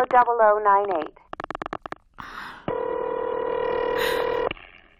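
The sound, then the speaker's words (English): A telephone call is placed through an operator and rings on the line: a voice is briefly heard, then a burst of short dialing pulses, then one long, steady buzzing ring tone. “Operator, try that Muriel 4-0098 number for me just once more, please. Ringing Murray Hill”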